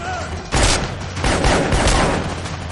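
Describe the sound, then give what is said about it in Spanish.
Gunfire in a fight scene from the 2017 action film John Wick: Chapter 2, with a dense run of sharp shots and booming bursts that crackle together over a few seconds. “Se levanta y dispara al del suelo.”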